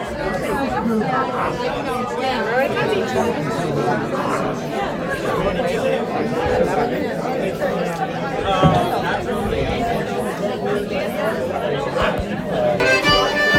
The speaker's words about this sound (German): Und wie man hört, ist es ziemlich voll hier.